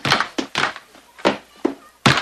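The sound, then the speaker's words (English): Dull thuds ring out as someone wearing a metal bucket on his head bangs it against a wall, several loud irregular knocks in quick succession. “Justin runs in with a bucket on his head and bangs it against a wall.”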